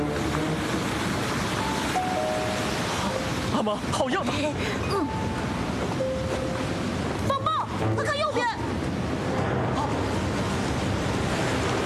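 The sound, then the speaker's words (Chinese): Stormy sea waves and wind roar steadily around a ship near reefs, a loud, constant wash of noise with brief voices calling out over it. “风浪越来越大”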